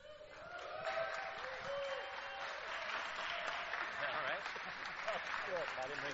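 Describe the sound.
Applause rises to welcome a speaker and holds as steady, dense clapping for about six seconds, with crowd voices mixed into the sound.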